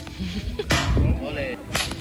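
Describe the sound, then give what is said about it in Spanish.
A stone is hurled from a shepherd's sling during traditional stone slinging in Málaga's Torcal area. It gives two sharp, whip-like cracks about a second apart, the first slightly longer, over a quiet background. “Bueno, así suena el tiro de piedra con ondas.”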